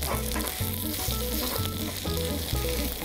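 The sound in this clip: Food sizzles steadily in hot oil in a pan as it is flipped and pressed down, and the pan is greased with a piece of radish. A continuous bright hiss carries throughout, with music playing over it.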